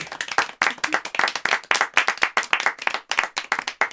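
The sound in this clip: Applause for a performance poet at a poetry event: dense, steady clapping from many hands that keeps going throughout, with quick rhythmic pulses and no pauses.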